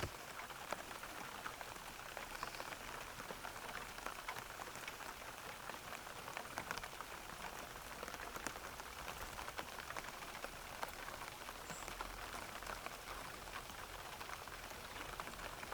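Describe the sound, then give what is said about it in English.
Steady rain pattering against leaves, a dense, even hiss of countless small drops that holds at a constant level throughout, with no voices. “Do you have any memories with this particular sound of the rain pattering against leaves?”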